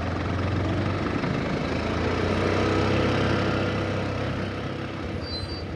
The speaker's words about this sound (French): il prend son quad pour sortir les 340 brebis de la bergerie pour les conduire au pâturage